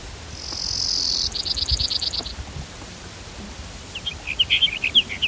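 A Brewer's sparrow sings high, buzzy trills: a drawn-out buzz runs into a rapid pulsed trill, and after a pause a choppier trill follows, over a low background rumble.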